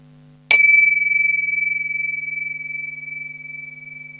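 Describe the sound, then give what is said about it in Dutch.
A small bell is struck once to open a seated meditation exercise. It rings with a clear, high, sustained tone that slowly fades with a gentle pulsing shimmer over a faint low hum. “En dan klinkt zo het belletje.”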